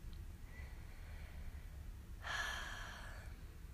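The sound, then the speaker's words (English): A deep breath in a guided breathing exercise: a single soft, airy breath swells after a quiet stretch, then fades, faint and unaccompanied by talk. “I invite you to keep breathing deeply in any pattern that feels right. Breathe at your own speed.”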